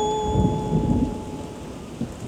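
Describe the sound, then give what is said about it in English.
Heavy rain and rumbling thunder from a thunderstorm during a hurricane with fierce winds. A dense, steady hiss of rain runs throughout, with deep low rumbles swelling and fading beneath it and a faint steady high tone held across the whole clip. “fierce winds and heavy rain come with it. There might be a tornado, too. Trees bend or fall. Windows might crack or shatter. Thunder roars, lightning flashes.”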